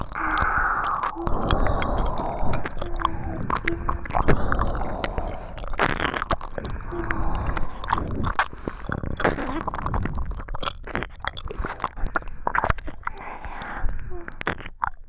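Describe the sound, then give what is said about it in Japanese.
Wet ear-licking mouth sounds in an intimate ASMR setting: a steady stream of many soft smacks, slurps and sharp little clicks, close and continuous throughout. “お耳舐められて、どうですか？”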